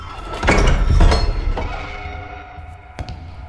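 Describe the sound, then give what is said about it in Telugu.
A door is opened in a dark, quiet setting, with a loud rumbling scrape followed by a few lighter knocks and a clink as the sound fades. “ఆ వెంటనే ఓ శబ్దం ఆ చిమ్మ చీకటిని బద్దలు చేసింది door open చేసుకుంటూ పెద్ద ఆయన లోపలికి వచ్చాడు”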